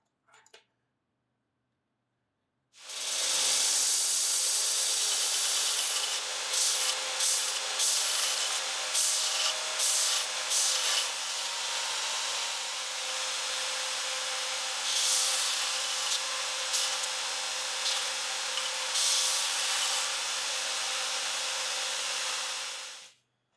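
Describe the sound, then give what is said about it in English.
Steady grinding as a bevel is ground to round over the outside edges of handheld pieces on a belt. A continuous, loud, hissing rasp runs for about twenty seconds with small dips in level, then stops abruptly. “they do need the outside edge rounding over to make them more comfortable to hold. I'll do that by grinding a bevel and then blending those in afterwards.”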